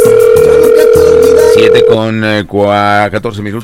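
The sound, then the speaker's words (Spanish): A telephone call rings through as a steady, even tone held for about two seconds, then an automated recorded voice message begins. “Vamos a ver si tenemos oportunidad de que nos reciban la llamada.”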